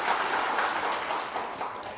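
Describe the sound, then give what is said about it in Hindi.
An audience in a training session claps steadily, a dense, even patter of many hands, fairly faint and with no talk over it. “ताली बजाना है तो अच्छी तरह से बजाओ ना”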